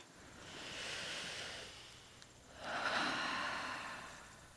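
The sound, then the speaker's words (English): Heavy, slow breathing used to calm down, heard as two long, breathy swells of air, each rising and fading, with no talk. “Why do you always breathe like that? It's just how I calm down”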